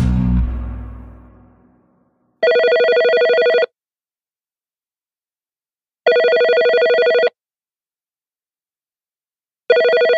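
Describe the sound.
Telephone ringing for a call: a steady electronic ring repeats in long, even bursts with silent gaps, two full rings and the start of a third, after a low rumbling sound fades out at the start.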